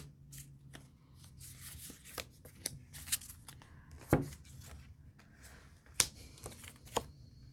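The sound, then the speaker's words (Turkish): Tarot cards are drawn from a deck and laid out, making soft papery flicks, slides and taps with a few sharper snaps, all quiet and irregular, with no talk. “Yıldız kartı geldi iki kart daha seçeceğim yanına.”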